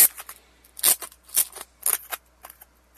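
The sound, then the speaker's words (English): Crinkling and tearing as a sealed pack of collectible stickers is opened, in a few sharp, papery bursts spread across a short stretch, with no talking. “There's one of four different stickers. This one's Koopa. Okay. And there's a little booklet. And I'm going to open this right now.”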